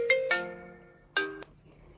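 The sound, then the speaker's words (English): A phone ringtone plays three bright electronic notes: two quick ones close together, then a third after a short pause. Each note rings briefly before cutting off, and there is no talk over them. “And here my phone rings.”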